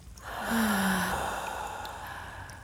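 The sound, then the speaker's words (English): A slow, deep breath swells into one long, airy rush of air and holds steady for about two seconds, with no talk over it. “Inhale. And exhale.”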